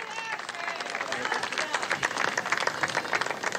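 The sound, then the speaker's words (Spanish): An audience applauds, giving a thick, continuous patter of many hands clapping that holds steady and grows slightly choppier toward the end, with voices blended into the noise. “Bueno, un aplauso a todos ustedes.”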